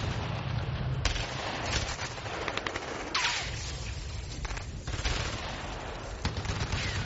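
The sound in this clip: Rifle gunfire in a battle, a dense and continuous volley of overlapping shots that crackle without pause, with a few sharper, louder bursts standing out over the sustained roar.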